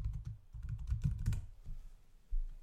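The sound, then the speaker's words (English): Typing on a computer keyboard: a quick run of many soft clicking keystrokes, then a sparser few, a short lull and one firmer press near the end, with no talk. “So for example, I can just type in artificial intelligence.”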